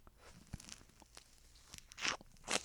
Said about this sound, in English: Did you just fucking eat a lemon? Here you go. Wow. I'm thoroughly impressed that you fucking just ate a lemon. Can you just eat lemons like that?